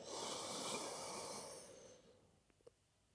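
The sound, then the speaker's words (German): A slow, audible inhalation during a guided breathing exercise: a breathy hiss that swells and holds for about two seconds, then fades, followed by a couple of faint soft clicks. “Und alles, was du dafür tun musst, ist einatmen”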